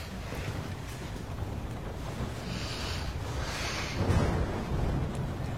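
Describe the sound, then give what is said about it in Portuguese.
A thunderstorm gives off steady, low-level rushing wind noise. A deeper rumble swells briefly near the end, and no voices are heard. “Essa tempestade tá uma loucura, né?”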